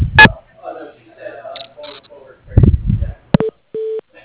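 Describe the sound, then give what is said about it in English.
A phone call is transferred to an office manager's voicemail, with a voice on the line and a few clicks, then a short electronic tone and a longer steady beep. “I can put you through to my office manager's voicemail. One moment.”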